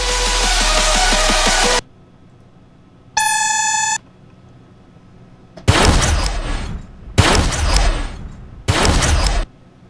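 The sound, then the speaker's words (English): A laser-gun sound effect made with an old can with a taped diaphragm at the bottom: a noisy burst and a short steady beep-like tone, then three sharp, ringing zaps in quick succession. “Oh, a laser gun sound effect. A nice little diaphragm down there at the bottom.”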